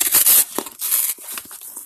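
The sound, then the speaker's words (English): Packing tape tears as a taped box of Kickstarter board games is opened. A long loud rip comes first, then a few shorter tearing and crinkling sounds. “Uh-oh. I'm going to have to open the box here. There we go. Trying to open it.”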